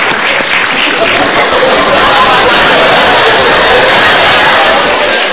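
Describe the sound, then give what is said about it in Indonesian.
Audience applause at an Indonesian motivational seminar, a dense, even wash of many hands clapping that holds steady and loud for the whole five seconds without a break. “Kita berikan tepuk tangan. Terima kasih banyak, Ibu.”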